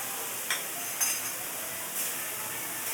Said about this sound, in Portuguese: Então a gente vai fritar ele, aquecendo ele. Não, assim não. A melhor colher de pau.